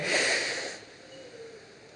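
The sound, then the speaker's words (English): An audience taking one big collective deep breath in together, a single airy rush of many inhalations lasting under a second that quickly fades to quiet. “why don't we all, right now, together, take one big collective deep breath in? Ready? In.”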